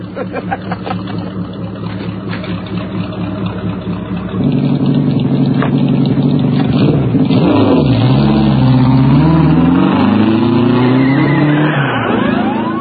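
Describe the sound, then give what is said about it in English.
A chopped tricycle's engine revs on a dirt road, a rough low drone that steps up louder midway, then rises and falls in sweeping pitch swings. “It's always fascinating how you get squealing wheels on tyre on dirt road.”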